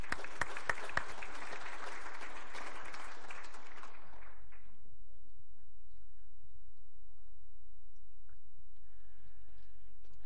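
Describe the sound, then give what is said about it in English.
A church audience applauds children who have come up front, a dense burst of clapping lasting about four seconds before fading into near silence. “All right, thank you, kids, and let's give them a hand for coming up.”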